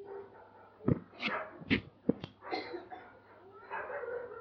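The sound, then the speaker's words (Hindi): Dogs bark in a quick, loud run of several sharp barks with a whimpering yip among them, followed by lower, rougher noise as a voice talks faintly in the background. “क्या हो गया कुत्तों को? ऐसा बिल्ली दिख गई होगी और कुछ नहीं?”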